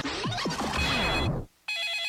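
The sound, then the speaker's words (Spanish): A telephone rings in two loud bursts. The first is a dense, warbling ring that cuts off into a brief silence, and the second is a steady, bright electronic tone. “No contestes el teléfono, porque la próxima víctima podría ser”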